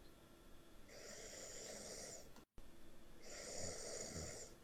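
Snoring from a sleeping little girl: two long, rasping snores that each hold steady for over a second, split by a brief silent gap, moderately loud and alone with no talk.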